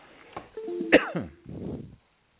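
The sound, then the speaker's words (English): A person coughs, with a few rough, breathy bursts in quick succession, fairly loud and alone without talk. “Excuse me for coughing.”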